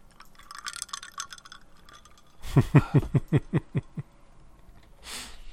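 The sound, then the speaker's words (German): Someone taking a sip of vodka tonic from a glass, heard as a quick rhythmic run of several soft gulps and swallows, fairly faint, after some light background rustling. “Da kann ich ganz kurz was einfach nur zu sagen und einen Schluck Vodka Tonic nehmen.”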